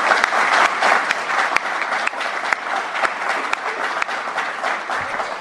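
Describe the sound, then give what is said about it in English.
An audience gives a long round of applause for event partners, including universities and a public radio station. The dense clapping stays steady and fairly loud throughout, with a few sharper claps standing out. “So give those partners all a big round of applause, because”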